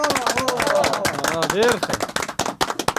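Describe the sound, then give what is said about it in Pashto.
Audience clapping at a quiz game after a correct answer: quick, uneven claps mixed in with people talking. “بالکل سم ځواب دی راکل. چکچک ورته ووهئ.”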